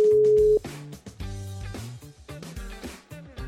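Outgoing phone call ringing: a steady mid-pitched tone holds for about half a second, then gives way to a run of melodic, harmonic tones that rise and fall for the rest of the call.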